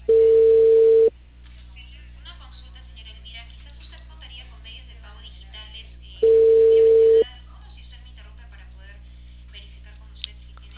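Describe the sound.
An outgoing telephone call ringing on the line: two steady ringing tones, each about a second long and roughly five seconds apart, with a low, constant line hum between them.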